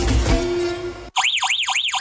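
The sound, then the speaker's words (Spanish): A Verisure home security alarm goes off after detecting an intruder. Its loud, warbling siren sweeps up and down three times in steady succession, cutting in sharply after about a second of other loud sound. “Así suena tu alarma Verisur cuando detecta un intruso.”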